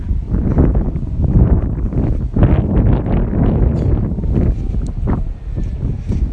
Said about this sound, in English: And hoping that you're not getting too much wind. I've got my case on my iPhone flapping backwards and forwards, trying to protect me from the wind.